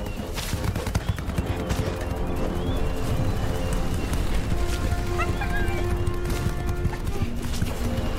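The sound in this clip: Horse hooves clip-clop steadily as horses run while fleeing a tornado, the tired animals pounding out a dense, continuous beat mixed with other loud sound throughout.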